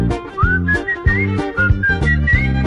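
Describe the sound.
A person whistles a tune in clear, bright phrases that rise and step between notes, over a repeating, rhythmic low accompaniment.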